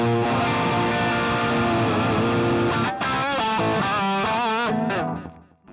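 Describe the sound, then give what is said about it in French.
Electric guitar on its factory British Lead preset, played straight from the instrument with no amplifier: thick, distorted sustained notes and chords give way to a run of bent, wavering lead notes before the sound fades out. “Je rappelle que le son que vous entendez sort directement de la guitare. Je n'ai aucun ampli, je n'ai rien.”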